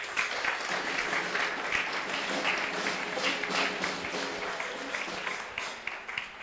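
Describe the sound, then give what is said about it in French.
A church audience applauds during a sermon, with dense, steady clapping that holds at an even, fairly loud level throughout. “Acclamons pour le nom du Seigneur Jésus.”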